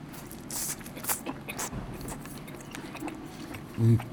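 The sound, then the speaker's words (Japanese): Someone bites and chews a small, bale-shaped, bite-sized inari sushi: rice soaked in dashi inside a Nankan-style fried tofu pouch. Faint, soft, moist clicks and squishes repeat irregularly, with a louder low bump near the end. “この南関揚げを使ってだしたっぷりのお稲荷さん、ちょうどね、稲荷といってもちょっと俵型の小ぶりの稲荷です。一口でいけちゃうぐらいの。いただきます。”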